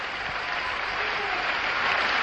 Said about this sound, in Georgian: ჭედილი დარბაზი ტაშის გრიალით შეხვდა ოპერა მინდიას ავტორსა და სპექტაკლის მონაწილეებს.